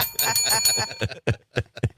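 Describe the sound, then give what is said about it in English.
A bright bell rings in a quick metallic trill for about a second. Several separate, sharp knocking hits follow at uneven intervals. “Give him the bell.”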